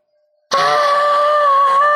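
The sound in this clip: A voice imitates the scream of someone in pain: one loud, sustained cry that starts abruptly and holds a steady, strained pitch for about a second and a half.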